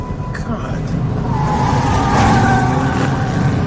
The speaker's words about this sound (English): A car, then a truck hurtled toward them.